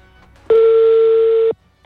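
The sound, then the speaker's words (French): A single steady ring tone of an outgoing telephone call, lasting about one second, sounds alone and evenly pitched. Low background noise surrounds it. “Attention, ça appelle. On écoute ce qui se passe. En espérant que ça décroche maintenant.”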